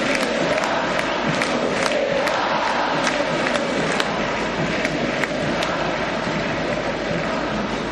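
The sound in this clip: Football stadium crowd chanting as players gather in the middle of the pitch, a dense, continuous roar of many voices that holds steady and loud for the whole stretch, with faint sharper accents scattered through it.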